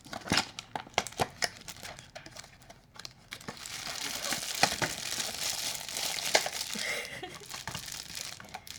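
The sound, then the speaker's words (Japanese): Crinkling and tearing of packaging while a product is unboxed, with a box and a plastic bag opened. A run of sharp, separate crackles comes first, then turns into steadier, continuous plastic rustling and crumpling. No voices are heard. “まだ箱自体は開けてなくて、ちょっと今から開封していきたいと思います”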